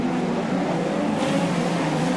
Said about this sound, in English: He has got that car singing as he wants.